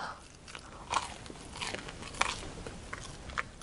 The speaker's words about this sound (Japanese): え、これ、一口で丸ままいくんですか、ね、どうぞ、もうガブッといっちゃう。あ、じゃあガブッと。いただきます。